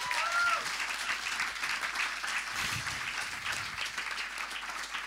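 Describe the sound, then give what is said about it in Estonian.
Applause from an audience: a dense, continuous wash of clapping that stays loud and fairly even for the whole stretch, with no break. “Teeme aplausi, no super.”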